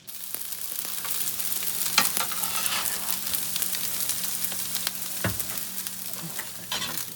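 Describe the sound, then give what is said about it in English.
Steady sizzling of pupusas frying in a home kitchen, a dense, continuous crackle with a few sharper pops and clatters, and no voices. “That's the sound of pupusas being made out of one of San Diego's micro-enterprise home kitchen operations”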